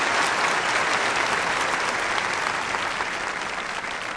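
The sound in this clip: An audience applauds with dense, sustained clapping that stays loud and even from start to finish, with no pauses and no clear voices.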